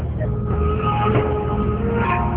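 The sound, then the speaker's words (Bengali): Continuous engine rumble of a CNG auto-rickshaw during a ride, a steady low drone with road noise and no pauses. “তারুর দোকান থেকে CNG তে চড়ে আমরা পৌঁছে যাই ছাগলনাইয়ার উপজেলায়।”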